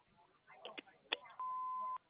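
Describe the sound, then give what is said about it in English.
A voicemail beep before recording a message: one steady, pure mid-pitched tone holding for about half a second, following a few faint, indistinct sounds. “Please leave your callback message after the beep.”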